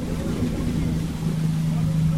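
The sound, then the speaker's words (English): A new Iraqi Navy patrol boat docks at the port of Umm Qasr after a celebratory lap, its engine a steady low drone with a constant tonal hum running throughout. “The vessel completed its victory lap to dock successfully at the port.”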